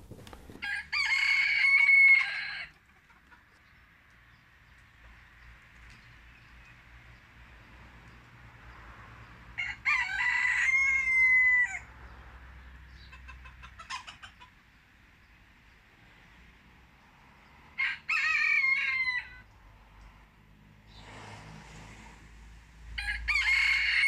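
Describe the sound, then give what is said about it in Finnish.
Several crows of a rooster in Spain, captured in a mobile phone recording. Each loud, drawn-out cock-a-doodle-doo stands alone, with quiet gaps of several seconds between calls and a low, faint background hum throughout. “Espanjan kukko. Niin, Espanjan kukko ja kännykällä tehty äänite ja yllättävä tilanne.”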